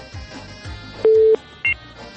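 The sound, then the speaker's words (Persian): Telephone tone sounding after a caller's line was cut off: one steady tone lasting about a third of a second, then a short, higher beep, heard against continuous low background sound. “بله، تماس خواهر ما متاسفانه قطع شد”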